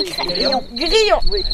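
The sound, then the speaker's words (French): Field cricket chirping, the larger field species, as a steady high-pitched trill that drops out briefly and returns while people talk over it. “Grillon. Mais ça, c'est le champêtre. C'est pas celui qu'on a vu tout à l'heure dans les bois. C'est le plus gros champêtre.”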